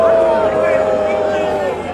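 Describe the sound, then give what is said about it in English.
Crowd booing a speaker on stage at a Global Citizen climate change event in New York City: a dense, sustained roar of massed voices that holds loud and steady throughout, with a thin steady tone running through it. “They're booing her. They're booing her the whole time she's on stage.”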